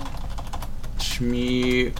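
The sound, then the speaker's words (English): Typing on a computer keyboard: a quick run of light, irregular key clicks, then a brief steady electronic tone overlaps near the end. “Damn, I can't type. But now all they're hearing is like clicking noises.”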